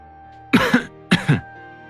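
A man coughs awkwardly, two short throaty bursts of coughing about half a second apart, each with a double push, fairly loud against a quiet steady background.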